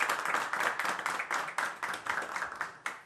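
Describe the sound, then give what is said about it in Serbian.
Clapping for performers at a kafana show, a quiet series of distinct claps that fall in a regular beat, each one fading quickly before the next. “Još jedan veliki aplauz, naravno, Zizi i Nataša.”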